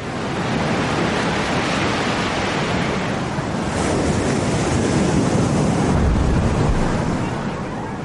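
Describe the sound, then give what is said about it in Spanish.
A tidal bore surges along the coast, a wave that can rise to 9 metres and travel at 40 km/h before stopping at the sea defences. It is a loud, continuous roar of rushing water and surf, swelling slightly midway. “Esta marea se puede elevar hasta 9 metros y alcanzar una velocidad de 40 kilómetros a la hora antes de detenerse en las defensas costeras.”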